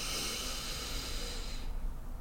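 A slow, soft inhalation during a guided breathing exercise: a quiet, steady airy hiss lasting over a second and a half before it thins out, with no voices.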